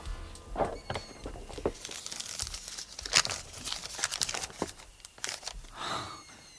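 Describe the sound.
Thin, rolled-up paper being unrolled, producing soft, crinkly rustling with many small crackles and a few louder bursts spread over several seconds, with no talking.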